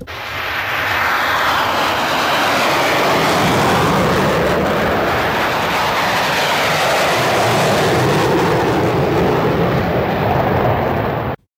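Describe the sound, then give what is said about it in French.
Two F-14 fighter jets take off on afterburner, making a loud, sustained roar that holds steady for about eleven seconds and then cuts off abruptly. “Oui, ça c'était deux F-14 au décollage avec la post-combustion.”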